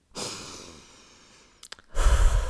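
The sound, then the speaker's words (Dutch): Someone breathes in and out slowly. One long, airy breath fades away, a few small mouth clicks follow, and then a louder, rougher breath comes in. “De eerste is adem in, adem uit.”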